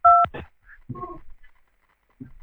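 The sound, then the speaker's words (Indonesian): A telephone dialing tone marks a call being connected to Jakarta: one short, loud two-pitch key beep at the start, then a few faint bits of voice. “Kalau belum ada di Palembang, kita sambungkan untuk Jakarta ya.”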